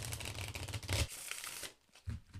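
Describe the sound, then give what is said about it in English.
Cards being shuffled: an old, plain deck of playing cards mixed by hand, a faint dense rustle for about a second, then softer scattered flicks, a short pause and a final brief burst. “So the first thing I'm gonna do is I'm gonna shuffle the cards.”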